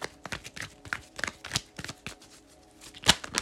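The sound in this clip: Playing cards are shuffled for a card reading: many quick, crisp riffling clicks and taps in an uneven rhythm, fairly faint, with one sharper snap near the end. No talk.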